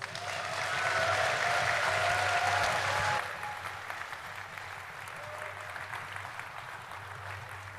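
An audience applauds to welcome an award-winning sci-fi author up to read a short story. Dense clapping swells loudest in the first few seconds, then drops to a softer, thinning patter that continues to the end.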